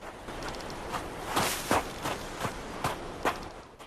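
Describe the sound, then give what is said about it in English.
Footsteps crunch in snow as someone hurries awkwardly down a snowy slope, several faint, uneven steps at a quick, irregular pace. “He leaves his sledge and hurries awkwardly down a slope.”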